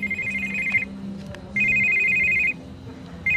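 A mobile phone ringing during an interview in a Vienna venue: a bright electronic ringtone sounds in repeated bursts, each lasting about a second with short gaps between them, over a faint background murmur.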